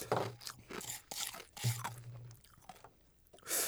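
Crunching of shaved ice coated in thick yellow syrup: a few soft, irregular crunchy bites and chewing sounds, fairly quiet, with brief pauses between them.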